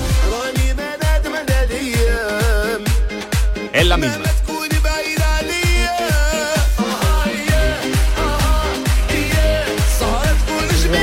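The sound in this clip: A song by an Algerian artist plays with a steady, punchy beat, bright melodic lines and sustained tones. A voice briefly speaks over the music.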